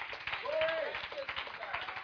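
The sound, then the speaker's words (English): Church audience clapping their hands in a steady, quick rhythm, with voices rising faintly over the claps. “Let everybody stand. Just clap your hands for the Lord.”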